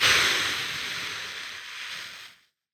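A single long exhale blown steadily into a breath-testing instrument during a DUI breath sample. The airy rush holds for about two and a half seconds, easing slightly, then cuts off into silence.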